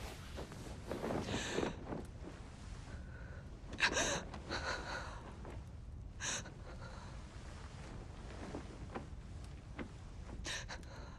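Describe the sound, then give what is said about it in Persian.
A woman takes deep breaths: a few faint, gasping inhales and breathy exhales at uneven intervals over a soft hiss, with no talk. “بانوی من یه نفس عمیق بکشید.”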